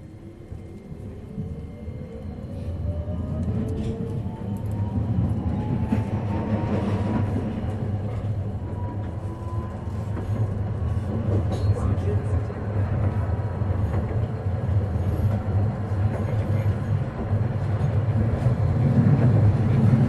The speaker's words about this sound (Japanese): はい、じゃあ、発車いたします。発車いたします。ご注意ください。